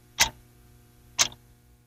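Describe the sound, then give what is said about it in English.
A clock ticks twice, with crisp, sharp clicks spaced about one second apart against near silence. “Don't wait. The clock is ticking.”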